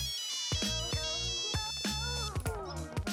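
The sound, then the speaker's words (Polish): A phone ringtone signals an incoming call: a bright electronic melody of repeating tonal notes over rhythmic low pulses plays steadily at moderate volume, with no talk over it. “No, bardzo się z tego cieszę, ale jakby po co mi teraz dzwonisz, jak nagrywam podcast”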